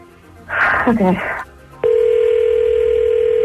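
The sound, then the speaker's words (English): A telephone is dialed to reach someone: a person talks briefly, then a steady, loud, unbroken line tone comes in abruptly and holds to the end. “I'm dialing him up right now.”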